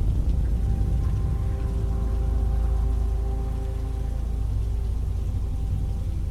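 Steady rain pouring down, a dense, unbroken hiss with a deep rumble underneath, even in loudness throughout, with faint sustained tones faintly audible beneath.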